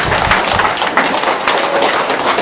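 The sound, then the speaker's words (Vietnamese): An audience applauds during a church sermon: a brief burst of dense, rushing clapping that stays fairly loud and even throughout. “Cho một tràng pháo tay thưa anh chị em.”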